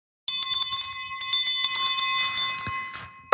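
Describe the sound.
A bell rings to open a meeting, many quick strikes blurring into a steady high-pitched clangour, loud and alone for about three seconds before stopping abruptly.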